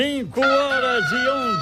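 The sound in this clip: A rooster crows: a long, loud, harmonic call with a short break near the start and a brief dip in pitch partway through, with no talk.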